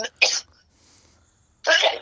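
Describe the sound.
A person sneezes: a sharp, breathy burst, then a quiet pause and a second forceful burst. No words are spoken.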